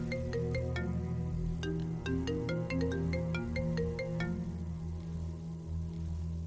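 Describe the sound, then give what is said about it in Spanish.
A telephone rings with a melodic electronic ringtone: a quick run of bright, high tones over sustained lower notes. It plays steadily and fairly loud, with no voices. “Suena el teléfono.”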